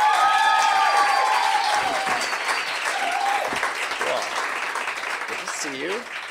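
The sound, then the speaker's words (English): An audience applauds a guest onto a stage with dense, sustained clapping and some cheers, easing slightly in volume as it goes on. “But I would like you to put your hands together for the talented Lily Allison.”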